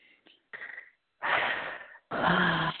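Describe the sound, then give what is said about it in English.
A deep breath: a few faint, short breath noises, then a long, loud, rushing inhale followed closely by an equally long exhale. “Deep breath again.”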